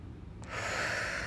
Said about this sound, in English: Take one more big inhale and really feel it in your tummy.